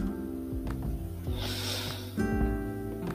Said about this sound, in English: Let's start by calming down our breath. Just take a breath in